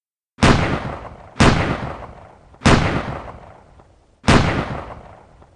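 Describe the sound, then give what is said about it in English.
Four loud gunshots from a Colt 1911 pistol crack out at slightly uneven intervals. Each sharp report is followed by a decaying rumbling tail. “Without thinking, without blinking, Joseph Doherty raised his Colt 1911 in the direction of Frederick Bronski and fired four shots.”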